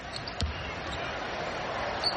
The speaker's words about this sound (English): Salon will bounce it a couple times, stares in, wearing the pink shoes.